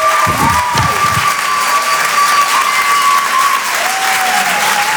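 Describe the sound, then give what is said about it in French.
Audience at a comedy club claps and cheers, a loud, dense, unbroken wash of applause with a few shouts mixed in, lasting the whole stretch. “Faites du bruit s'il vous plaît pour Lala sur Rire et Chanson.”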